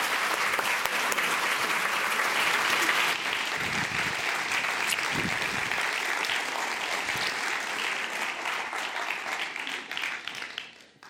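Audience applause greeting two authors at the Los Angeles Public Library: loud, dense clapping that holds steady for several seconds, then gradually thins and tapers off at the end.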